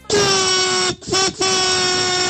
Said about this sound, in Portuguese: essa buzina vai pro rolo, lá. Olha a galera buzinando que nem doido, cara.